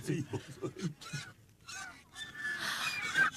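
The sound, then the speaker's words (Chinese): Swans call as they land on a palace rooftop, giving a few nasal, honking cries mixed with people talking. “看，天鹅。 哎，天鹅落到翠微宫宫顶上了。”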